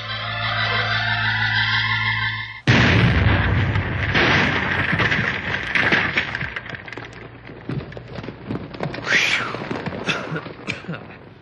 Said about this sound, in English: We'll blast as soon as you're ready.